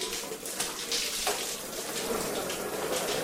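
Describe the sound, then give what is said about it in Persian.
Cold water runs from a tap into a bowl. It makes a steady, full hiss and splash that continues unbroken from start to end. “اون آب سرد رو باز کن. نگاه نکن، آب سرد رو باز کن. کاسه رو با آب سرد پر کن.”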